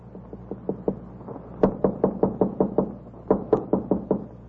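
Knocking on a door in a Tsarist-era prison setting on Sakhalin island: many sharp, evenly spaced raps in three bursts. A quieter run comes first, then two louder, insistent volleys, with no voices.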